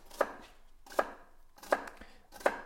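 Four sharp knife chops through an onion, evenly spaced and crisp, each a brief percussive strike with quiet gaps between them.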